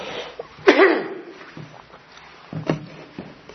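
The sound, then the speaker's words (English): A person clears their throat: one sharp, loud, raspy burst, then a few softer rough bursts spaced out over the next seconds. No speech is heard between them. “Well, excuse me, I'll clear this from my throat in a second.”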